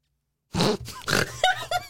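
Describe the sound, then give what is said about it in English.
A loud human snort close to a microphone bursts in after half a second of silence, followed by a few more rough, nasal grunting and snorting bursts in quick succession. “It was such a loud snort in my ear. You know what? I gotta say, that snort hurt.”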